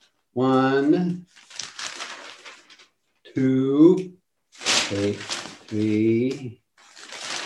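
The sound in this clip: Pages of The Record, Stockton's main newspaper, crinkle and rustle as they are leafed through. Short papery bursts fall between stretches of a voice talking.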